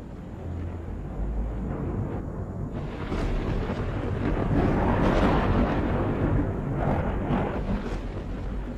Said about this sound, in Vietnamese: những tiếng nổ đoàng đoàng vang lên, là những tiếng sấm sét cắt ngang bầu trời